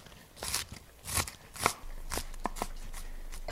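Knife chopping medium onions, heard as a series of crisp, crunchy cuts at an uneven pace. They are fairly quiet, and each slice gives a short crackling snap.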